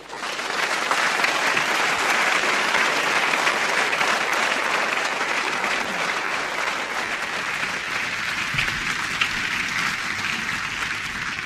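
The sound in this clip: Sustained applause from a lecture audience welcoming the speaker to the stage for the Lady Eve Balfour Memorial Lecture of the Soil Association. Dense, even clapping holds at a steady, loud level from start to finish.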